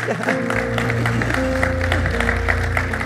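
Audience applause welcoming guests at a church service, a steady wash of clapping that runs through the whole clip over sustained musical tones.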